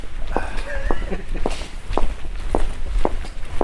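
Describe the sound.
Footsteps of people walking, seven even, regular steps landing at a steady pace, with faint voices in the background near the start.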